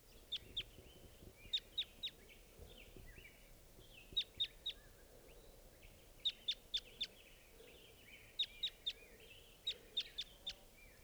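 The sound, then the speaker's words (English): A wild bird calls in short, sharp, high-pitched chirps grouped in quick clusters of several notes. The clusters repeat at fairly regular intervals over a low, continuous rumble. “There's a wild bird here. Wild bird.”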